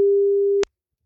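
A telephone ring-back tone from an outgoing call to a listener: one steady mid-pitched tone, fairly loud and alone, holding for just over half a second before it cuts off abruptly into silence.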